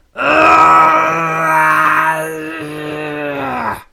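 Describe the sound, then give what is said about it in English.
A man's voice imitates a wrestler's strained, weird grunting noises, Fuji rubbing his knuckles against his temples: one long, loud, wavering throaty groan lasting several seconds before it trails off. “Fuji taking either a violent shit or having a nervous breakdown, potentially both, as he's making strained weird noises as he rubs his knuckles against his temples. Now apologies for what I'm about to do here, but I'm going to try and recreate it a little bit.”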